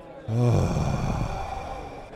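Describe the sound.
A long calming exhalation, demonstrated as a relaxing breath. It opens with a brief voiced sigh-like 'ah' and then trails off into a softer, breathy rush of air that fades over about two seconds.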